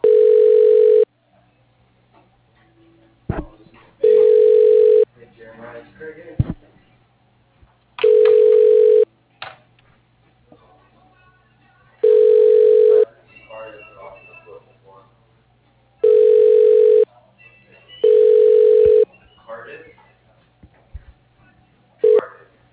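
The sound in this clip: Telephone ringback tone on an office line while a call is transferred to an extension: six steady, mid-pitched ring bursts, each about a second long, separated by quiet gaps with faint line noise.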